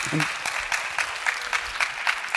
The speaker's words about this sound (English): For sure, that's an applause.